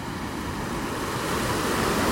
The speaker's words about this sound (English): Looking out over the beautiful blue waters, mostly turquoise, watching the tide come and go.